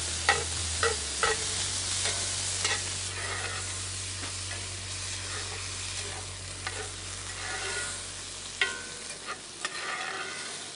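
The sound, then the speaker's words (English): Rice fries in olive oil and jalapeno juice in a pan, a constant bright sizzle broken by several sharp scrapes and clinks as it is stirred. “Now we got the juice of the jalapeno. We got the olive oil in there, and we'll just fry this”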